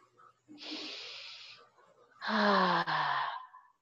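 Exhaling breath during a guided grounding meditation: a soft airy hiss of breath, then after a pause a longer, louder voiced sigh with a slightly falling tone.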